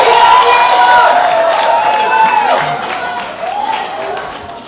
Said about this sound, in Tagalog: malakas ang palakpak nila. Mabuti yan. It's good to hear.